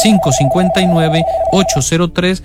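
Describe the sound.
A telephone ringing with an incoming call, a steady high tone that holds for about a second and a half beneath continuous talking.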